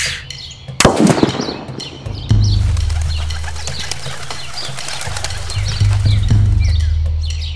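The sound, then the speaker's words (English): A rifle shot with a bullet striking a can: a single sharp crack comes first, then about a second and a half later a louder, booming report that leaves a sustained low rumble. “The bullet struck the can. 2.5 seconds later, the report of the rifle.”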